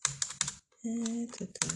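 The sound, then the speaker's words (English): Computer keyboard typing comes in a few quick, faint bursts of clicking keystrokes, with a short gap partway through. “Hold on. I gotta type this out right quick.”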